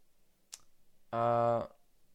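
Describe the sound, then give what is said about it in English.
A single sharp computer mouse click while choosing an amount on a donation website, followed by a short hummed vocal sound. “what you do is you click on how many trees you want to do”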